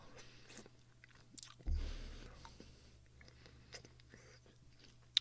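Biting and chewing a slice of apple sprinkled with salt: one sharp, crisp crunch of a bite, followed by soft, wet chewing and small mouth sounds, all faint and close.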